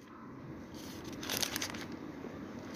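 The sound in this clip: Pages of a Bible being flipped during a sermon: a soft papery rustle with a brief, crinkly burst of turning pages in the middle, quiet and alone over faint background hiss.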